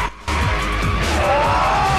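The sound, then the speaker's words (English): A gold Toyota speeds around a corner in a street race with a loud, roaring engine that holds steady and then rises into a high, climbing whine. “The gold Toyota rockets around the corner ahead of Brian.”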